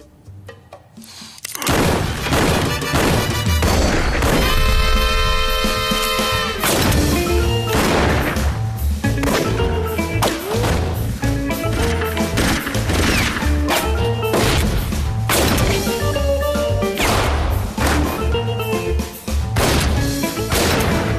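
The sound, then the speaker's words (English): Gunshots from increasingly larger guns in a 1990s rap music video: many loud, sharp blasts in rapid succession over dense, pounding music, with no talk. “and the gunshots get more so.”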